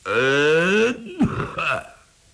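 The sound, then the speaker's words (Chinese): A single cough imitated by a performer's voice: a drawn-out voiced throat sound, then a short gruff burst and a trailing grunt, heard alone without other talk. “就听有人咳嗽了一声”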